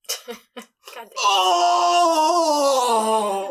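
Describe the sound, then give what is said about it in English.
A loud, drawn-out human groan from a restroom, told as part of a tabletop fantasy game set in a tavern. A few short vocal bursts come first, then a long moan that holds steady and sags slightly in pitch toward the end. “you hear a loud groan coming from the restroom.”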